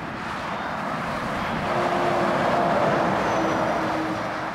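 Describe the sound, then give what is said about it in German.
Heavy lorries thundering along a French national road: a continuous deep roaring rumble that swells toward the middle and eases slightly at the end, with no voices. “Auf der Route Nationale von Montreuil-Belley nach Loudun donnern die Laster im Sekundentakt vorbei.”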